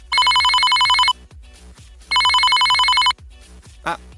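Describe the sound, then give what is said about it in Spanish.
Telephone ringing in two loud, high-pitched electronic bursts of about a second each, separated by a pause of roughly a second. “Estamos recibiendo una llamada desde nuestro estudio.”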